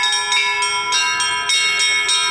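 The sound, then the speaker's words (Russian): Church bells pealing at a village church to announce a bishop's arrival: bright, sustained, ringing tones layered together, with many rhythmic strikes recurring at a steady, quick pace. “Колокольный перезвон возвестил о прибытии правящего архиерея на Инжавинскую землю.”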